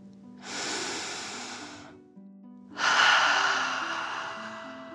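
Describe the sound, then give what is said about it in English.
Deep breathing in and out: two long, slow, airy breaths, the second louder and fuller, with soft sustained low tones beneath. “Relax into the fluffy cloud and breathe like a dragon, in and out.”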